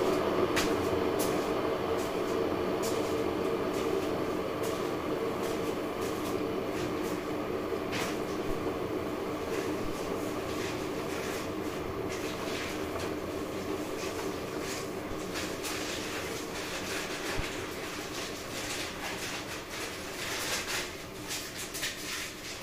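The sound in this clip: A coffee pad machine running, brewing with two pads, gives a loud, steady mechanical whirring drone that holds throughout, with occasional faint clicks and rattles over the hum.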